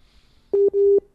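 Telephone line tone on a radio call to Bahía Blanca: two steady, low, even beeps, a shorter one and then a longer one, separated by a brief gap, with silence around them.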